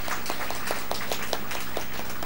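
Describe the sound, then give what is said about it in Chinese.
Audience applause at a Cantonese-speaking audience gathering, a loose scatter of individual claps, fairly soft, ringing out over a steady low hum. “俾啲掌声佢哋啊！”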